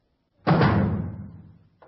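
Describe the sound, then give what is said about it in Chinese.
A door being shut with one heavy thud whose low rumble fades away over about a second. “关上门，把门都关上。”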